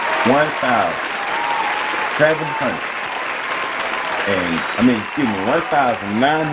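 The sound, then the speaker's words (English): Audience applause at a college baseball event honoring a coach's record, dense and steady clapping throughout, while a man keeps speaking loudly over it. “let's give a round of applause to Mike Martin”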